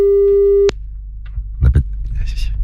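A steady telephone tone holds for under a second at one even pitch, then cuts off abruptly, followed by a few faint clicks and rustles.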